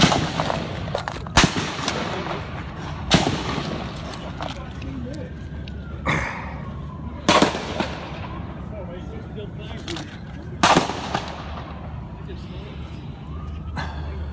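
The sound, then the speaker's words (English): Gunfire from a gunman who opened fire at an early morning baseball practice: several sharp, loud shots spaced seconds apart, with people talking over a steady background. “when a gunman showed up and opened fire”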